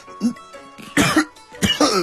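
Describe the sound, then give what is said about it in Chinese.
Coughing from someone choked by spicy filling in a steamed bun: a few harsh coughs in short, uneven bursts, with brief voiced sounds between them. “哎呦，你这包子怎么里面还搁辣的？呛我直咳嗽，真是。”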